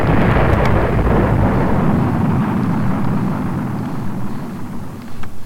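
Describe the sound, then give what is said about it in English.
Spaceship blast-off in a video game, a loud, dense rumbling roar that stays steady and slowly thins out over about five seconds, with no voices. “Pretty cool, blast off.”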